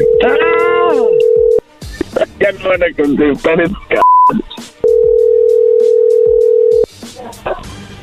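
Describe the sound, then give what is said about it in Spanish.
Telephone tones as a call is placed: a loud, steady tone under a voice, people talking, a brief high beep, then another long, steady tone before talk resumes. “Vamos a marcarles una vez más para aclarar esto, para que no se asusten.”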